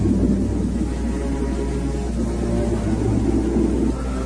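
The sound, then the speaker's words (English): Steady droning motor of an inflatable raft heading across a river toward shore, a continuous low rumbling engine noise that holds an even level without breaks. “In the viewfinder, he sees the two men motor for shore in the inflatable raft.”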